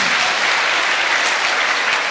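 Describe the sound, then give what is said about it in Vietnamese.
Applause from an audience at a Buddhist teaching session: a dense, even patter of many clapping hands, steady throughout with no voices over it. “Xin cho một tràng pháo tay.”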